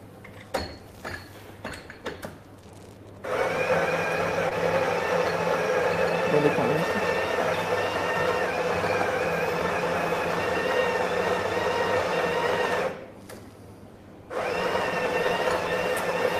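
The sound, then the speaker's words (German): An espresso machine brewing coffee gives off a steady mechanical whirr and hum that runs for about ten seconds, cuts out briefly, then starts again. A few clicks and handling knocks come first, and people talk around it. “Das ist mir nämlich auch schon aufgefallen, ja, wo du unsere Maschine eingestellt hast. Du lässt ziemlich viel Kaffee raus.”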